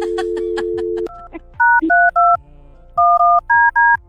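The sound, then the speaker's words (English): Telephone dialing as a caller punches in a phone number: a steady dial tone, then a quick run of loud, clean electronic dual-tone beeps in two bursts separated by a short pause. “Okay. Let me call her number here.”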